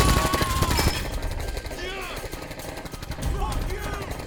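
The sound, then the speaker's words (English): Gunfire in a dubbed film scene: a dense, sustained rattle of many rapid shots runs throughout, mixed with other action sound effects at a fairly steady loudness. “He's fucking shooting at us!”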